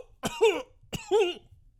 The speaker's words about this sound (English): Oh, I shouldn't have done that coughing.